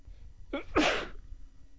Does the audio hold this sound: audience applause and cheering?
no